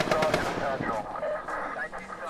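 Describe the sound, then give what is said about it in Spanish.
Gunfire in an armed confrontation between uniformed forces and suspected drug traffickers: dense, rapid bursts of shots crackle continuously, with voices mixed into the chaotic noise. “escuchar tiroteos y las voces de los uniformados comunicándose y dándose instrucciones.”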